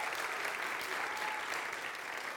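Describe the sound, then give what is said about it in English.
Applause from a church audience during a service, honouring the children's director: a dense, steady wash of clapping that holds at an even level for the whole stretch, with no gaps or distinct single claps. “Give her a round of applause and her leadership.”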